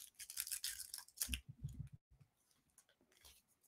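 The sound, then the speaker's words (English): Wrapping paper crinkling and tearing as a gift containing a bottle of antibacterial hand spray is unwrapped: a burst of crisp rustles and rips at first, then sparse, soft handling noises, all faint. “So I'm going to unwrap this gift.”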